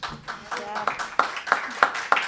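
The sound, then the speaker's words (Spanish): Clapping at a political economy congress begins under a speaking voice and settles into a few sharp, evenly spaced claps. “Un aplauso.”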